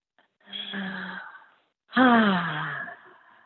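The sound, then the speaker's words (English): A deep breath drawn in slowly, then let out as a long voiced sigh. The exhale is louder and fuller than the inhale and slides downward in pitch as it fades. “Notice how I just took a deep breath.”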